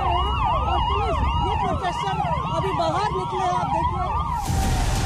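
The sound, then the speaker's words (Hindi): Police sirens wail at a busy city intersection in Delhi during a protest, several overlapping tones sweeping up and down continuously and loudly, with a burst of broad noise near the end. “कर्तव्य पथ का चौराहा है जहां आपको सिर्फ police के siren सुनाई देंगे”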